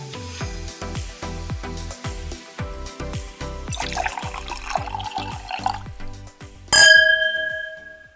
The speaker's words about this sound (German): So, wir haben uns jetzt erstmal eine Flasche Weißwein aus der Boxbeutelflasche aufgemacht